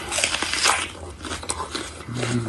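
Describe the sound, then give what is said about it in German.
Crisp, crunchy bites into a huge raw onion: a few sharp, wet crunches and tearing snaps, followed by a low chewing rumble near the end. “Um das zu demonstrieren, beißt er erst in eine riesige rohe Zwiebel.”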